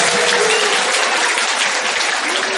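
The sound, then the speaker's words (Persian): Vigorous clapping, a dense, continuous patter of many hand claps held at a loud, even level throughout. “قشنگ دست بزن”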